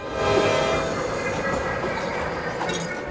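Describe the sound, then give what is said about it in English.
A train pulling away: a dense, loud, steady rumble and rattle of wheels on track that carries on without a break for about three seconds. “but the train is pulling away”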